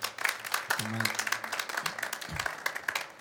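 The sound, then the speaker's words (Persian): Audience clapping in a dense, steady stream of many overlapping claps that lasts the whole stretch, with a brief voice heard partway through. “حالا به افتخار خودت دست بزن.”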